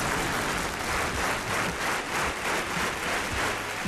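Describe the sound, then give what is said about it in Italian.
An applause sound effect on an Italian radio show, a steady burst of many hands clapping at an even, fairly loud level throughout, with no voices. “ci vuole un applauso, una standing ovation sullo sciame,”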